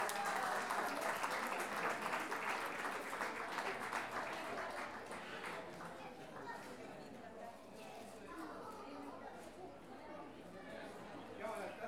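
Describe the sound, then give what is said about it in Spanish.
Sustained applause from an audience at a payador improvised-verse championship for two performers. Dense, steady clapping eases slightly after the first few seconds, with chatter mixed in. “Entonces, un aplauso para Carlos Sotomayor y Cecilia Astorga.”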